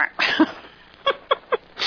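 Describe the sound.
A duck-quack sound effect plays a few short, nasal, buzzy quacks. A longer burst comes first, then evenly spaced, clipped quacks follow, with no talking.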